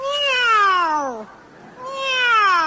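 A person imitates a cat, giving two drawn-out, clearly voiced meows. Each slides downward in pitch, and a brief quiet gap separates them.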